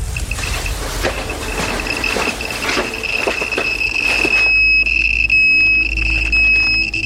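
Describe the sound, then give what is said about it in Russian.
A dosimeter in the city of Pripyat signals high radiation with a steady, piercing high-pitched electronic tone. Rapid clicking runs under the tone at first, and then the tone carries on alone and loud. “Это сигнал дозиметра. В городе Припять прибор показывает 1200 микрорентген, при том, что безопасным уровнем радиации считаются показатели до 50.”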